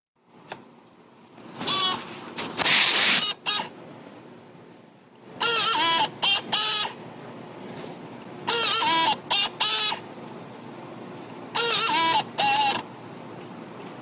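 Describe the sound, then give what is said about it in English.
Computer DVD drive running its eject mechanism, four loud bursts of whirring motor noise, each broken into short stuttering pulses, with quiet pauses between them. “And this is the DVD drive exercising the eject machinery, I believe, or some machinery. I think it depends. Yeah, that's definitely the sound it makes when it ejects a disc.”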